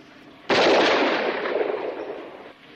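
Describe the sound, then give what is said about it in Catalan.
A gunshot from a gun being fired: one sudden, loud blast that spreads into a rough, roaring decay lasting about two seconds before it cuts off, with no talk over it. “Empuñe el arma. Ande, dispare.”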